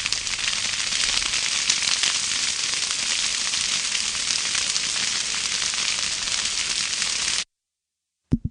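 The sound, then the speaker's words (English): A fire crackles in a dense, steady stream of snaps and pops at an even level, then stops abruptly into silence. “The fire fades out.”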